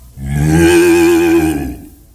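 A cow lets out one long, loud moo on a steady low pitch that swells and then fades, with no other sound around it.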